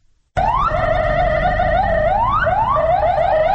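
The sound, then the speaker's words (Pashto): Ambulance sirens wail as casualties are carried to hospitals after a deadly attack. A loud, continuous siren begins abruptly after a brief silence, repeatedly sweeping up in pitch and dropping back. “دا د امبولانسانو د بیړني حالت ژغونه دي چې پکې له پیښې وروسته مړی او ټپیان روغتونو ته وړل کیږي.”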